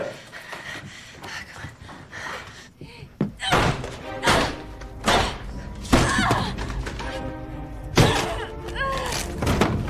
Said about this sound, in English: The chair seat breaks.